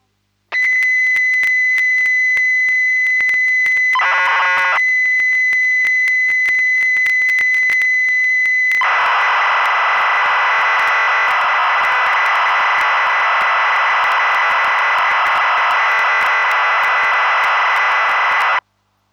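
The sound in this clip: Famicom BASIC program data loading from cassette tape: a steady high pilot tone broken by a short chirping burst, then a loud, continuous hissing, warbling data screech for about ten seconds that cuts off abruptly.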